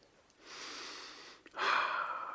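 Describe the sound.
A deep sniff taken to breathe in the smell of a freshly cut loaf of plain bread sprinkled with coarse salt: two long, airy breaths, the second louder and harsher, with no talking.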